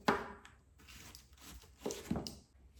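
A sharp knife slices cabbage into fine strips on a board, making a few faint, crisp crunching cuts at irregular intervals with quiet pauses between them.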